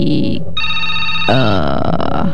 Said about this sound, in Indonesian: Oke, kita sapa selanjutnya di ujung telepon. Halo, selamat malam Ruang Rindu.